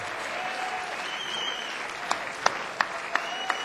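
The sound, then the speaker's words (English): Audience applause for drummer Daru Jones at a live show, a soft clapping wash joined by a few sharp, evenly spaced hits in the second half. “Give it up for Daru Jones.”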